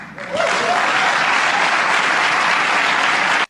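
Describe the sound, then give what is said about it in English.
Crowd applause: dense, steady clapping that swells quickly, holds at an even loud level for about three seconds and then cuts off abruptly. “What you just heard was applause for an authoritarian regime.”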